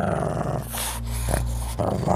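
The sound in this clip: A voice imitates a dog's growl: a low, rough, sustained rumble lasting about two seconds. It dips briefly near the middle, then continues at a fairly steady loudness with no other sounds.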